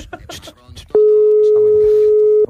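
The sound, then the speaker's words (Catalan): A telephone ringing tone sounds while a call is placed: one loud, steady, pure tone lasting about a second and a half. People talk just before and after it. “Estem trucant.”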